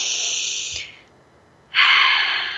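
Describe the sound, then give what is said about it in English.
A group takes a deep breath together: a long, airy breath, a short quiet pause, then a second, louder rush of breath. “let's all take a breath together”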